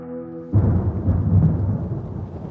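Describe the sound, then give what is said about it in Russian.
Thunder rolls during a storm of slanting rain beating on window glass. A brief low sustained tone gives way to a loud, deep rumble that swells a few times and continues to the end. “Лишь косой дождь долбил по оконным стеклам, да снаружи раздавались ракочущие раскаты грома.”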